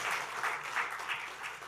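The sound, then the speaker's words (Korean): Applause at a church service, welcoming the birth of a baby daughter: many hands clapping in a dense, steady patter with gentle swells, moderately loud and continuous throughout. “큰 박수로 한번 축하하겠습니다.”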